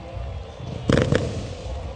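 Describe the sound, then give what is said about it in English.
Fireworks go off on an evening in Dyersville, Iowa, after a minor league baseball game at the Field of Dreams: a short cluster of crackling pops and bangs over steady background noise. “Fireworks go off here on this Dyersville evening.”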